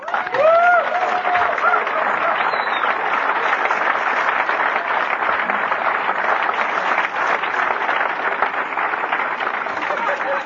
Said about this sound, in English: I want you to give this man a big cornerstone welcome.